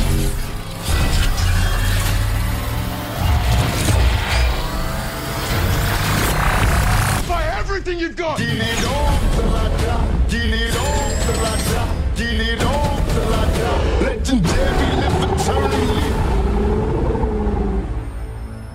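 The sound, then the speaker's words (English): Trailer audio for the film Pacific Rim: Uprising: a dense, loud, continuous mix of speech, crashing impacts, mechanical clanks and rumbling, with a brief dip in intensity about two-fifths of the way through before the barrage resumes. “That was the trailer for Pacific Rim Uprising.”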